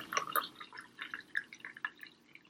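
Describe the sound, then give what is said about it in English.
Spiced coffee poured into a cup, giving a light, quiet trickle of liquid with many small splashing, dripping sounds and no voices. “And then we will add our spiced coffee until there's about half an inch or 3/4 of an inch of room at the top to float our cream on top.”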